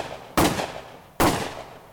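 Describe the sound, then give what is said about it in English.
Two sharp gunshot-like bangs, each a loud sudden crack with a decaying tail, spaced under a second apart. “the sound of 3 gunshots”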